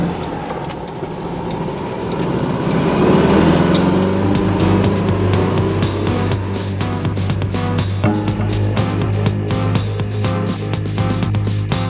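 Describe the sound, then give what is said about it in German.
A yellow Volkswagen Beetle roars away from a harbor area at full throttle, its loud engine a continuous low rumbling drone that holds steady throughout. “als sie in Bobs gelben Käfer das Hafengelände mit Vollgas verlassen hatten.”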